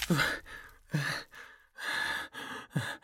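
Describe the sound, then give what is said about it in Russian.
A wounded man breathes raggedly and heavily after losing his left arm in a fight, with a few harsh, uneven gasping breaths and short silent pauses between them. “Мое дыхание рваное и тяжелое. Успокойся, успокойся.”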